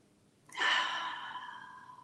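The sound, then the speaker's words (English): A single deep centering breath, an airy rush of air that starts abruptly and tapers off over about a second and a half, quiet and alone. “I invite you to join me in taking a deep grounding and centering breath as you fully accept the invitation to listen and to be here now.”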